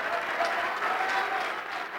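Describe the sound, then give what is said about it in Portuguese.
A church audience claps during an altar call at a worship service. The applause is steady and fairly soft, a continuous even patter that fades slightly at the end. “Vamos aplaudir mais.”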